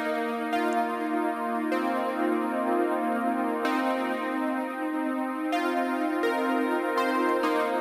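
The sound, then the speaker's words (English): Synth chords processed through a Logic Pro Bit Crusher at 16-bit resolution and 4x downsampling, giving a gritty, buzzy harmonic tone. The sustained chords shift every second or two, and no one speaks. “and I've got a 16-bit resolution and a 4x down sampling, and it sounds like this.”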